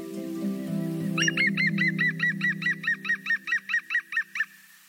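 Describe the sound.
A green woodpecker gives its laughing call: a long, rapid series of loud, evenly repeated clipped notes, over a low drone that fades as the call goes on.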